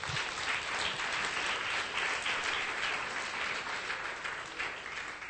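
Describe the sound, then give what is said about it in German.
A church audience applauds during a worship service, a steady, even wash of clapping that holds throughout at a soft level. “Give the Lord a hand. Ein Applaus für den Herrn.”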